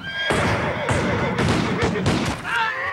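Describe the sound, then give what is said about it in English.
Gunfire in a Civil War drama as Yankee soldiers open fire on mounted Confederates: a few loud cracking shots and heavy bursts, with a horse whinnying at the start and again near the end. “The Yankees open fire, gunning down several Confederates. Thorndale's men shoot several Yankees from their mounts.”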